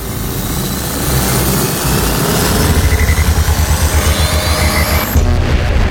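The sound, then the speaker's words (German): A time machine powering up as a sound effect: an engine-like rumble swells, then settles into fast, even pulsing like beating rotors while a thin high whine climbs. It cuts off abruptly near the end. “Die Ego FM Zeitmaschine fährt hoch”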